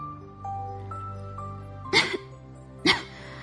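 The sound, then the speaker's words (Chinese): Two short, sharp coughs from a voice imitating a sick hedgehog, spaced about a second apart over soft sustained background tones. “刺猬先生咳嗽着说”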